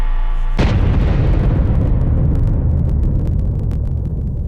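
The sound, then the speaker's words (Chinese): Explosion of a full-scale detonation test in China's nuclear weapons program: a sudden loud blast cuts off a steady hum, then a long, heavy, rolling roar slowly fades. “6月6日下午5时左右，全尺寸爆轰试验准时点火。”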